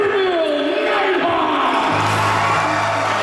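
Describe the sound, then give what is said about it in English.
More than 100 people cheer at a rink party welcoming back the Niverville Nighthawks hockey team after their Centennial Cup national championship win, a loud, sustained roar of crowd voices with whoops and shouted yells. “More than 100 people in the team rink celebrating their national champions and welcoming back the Niverville Nighthawks after their Centennial Cup win in Prince Edward Island.”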